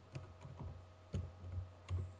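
Faint typing on a computer keyboard, heard as a few short bursts of light clicking keystrokes over a steady low electrical hum.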